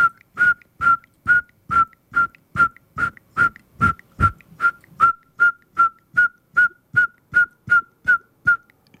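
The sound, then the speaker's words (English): Whistled imitation of a saw-whet owl call: a long, steady run of many short, evenly spaced toots at one unchanging pitch, each the same loudness, sounding like a repetitive backup-alarm beep. “And that is the call of the saw-whet owl. It sounds a bit like this. Can't get my whistle working here. Let's try it again.”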